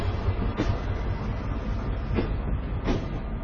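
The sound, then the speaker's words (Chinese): Last train S232 stopping at Qinghuayuan station, heard as a steady rolling rumble of railcars with a few rhythmic wheel clacks rising above it, no voices. “晚上二十一点，送走最后一列在清华园站停靠的车 S 二三二。”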